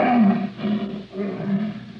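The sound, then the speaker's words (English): An untrained lion roars in protest, a deep, throaty, sustained rumble that swells and pulses over two seconds. “Except for the occasional roar of protest that comes from the throat of Sultan, the untrained lion that Victor Parnell had vowed he would break.”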